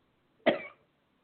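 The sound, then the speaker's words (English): A single harsh cough from someone with an irritated throat, a brief rough burst that ends quickly and is followed by quiet. “Now I'm gagging.”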